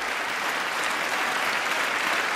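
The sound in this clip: An audience applauds a line about protecting transgender people during a political speech. The clapping is a loud, continuous roar that holds at an even level for over two seconds.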